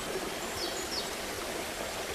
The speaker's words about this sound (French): Au bord du chemin, petite cascade.